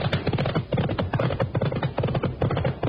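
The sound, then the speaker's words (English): A pony galloping flat out, its hooves beating in a fast, dense, steady drumming that runs loud and unbroken throughout, with no voices. “All right, come on, rattle up your pony and see if we can't get down there and tell them. Come on, you broken down, benighted bundle of buzzard's bait. Run!”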